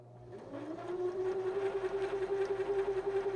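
A sewing machine motor runs slowly with the foot control held back. Its low hum rises briefly in pitch, then holds steady, throbbing in a rapid, regular pulse throughout. No talk is heard.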